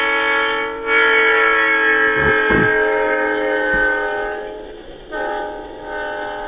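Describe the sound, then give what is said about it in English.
A passing train sounds its horn in a long, loud, sustained blare with a couple of brief breaks, rich in harmonics over low rail rumble, recorded to demonstrate the Doppler effect. “Missed the first few seconds of it, so we'll just start it again. It's, as Brendan says, it's the Doppler effect.”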